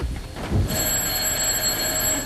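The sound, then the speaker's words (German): A telephone rings at the opening of a village comedy radio play. A brief low rustle comes first, then a steady, bright ringing tone starts and holds unbroken to the end. “Gerade schon am Anfang des Stücks läutet das Telefon.”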